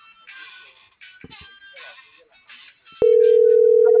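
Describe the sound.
An unanswered telephone call rings out as a steady electronic tone that begins abruptly after a few seconds of muffled, speech-like sound.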